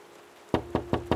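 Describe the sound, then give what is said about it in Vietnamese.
Four firm knocks on a door come in a quick, even rhythm, each a sharp thud standing out over a faint, steady hum. “Đang mãi nghĩ ngợi thì tiếng đập cửa làm cho Tạo”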